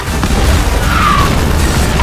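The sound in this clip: A rocket-propelled grenade explosion in a military shooter video game: a loud, dense roaring rumble that holds steady across the whole two seconds without a break.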